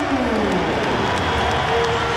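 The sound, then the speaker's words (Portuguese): Stadium crowd at Estádio da Luz applauding a footballer during a football match, heard as a broad, steady roar of many voices and clapping with no breaks. “Grande aplauso. Aplausos a Grimaldo, está de malas aviadas para a Alemanha, vai para o Bayer Leverkusen.”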